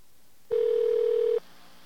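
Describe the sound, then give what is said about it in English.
A single steady telephone tone sounds while a toll-free number is dialed. It is a clear, even beep held for just under a second, with nothing else around it. “try out that 800 number the listener gave us, see if we can actually wander around the voicemail systems of our elected representatives.”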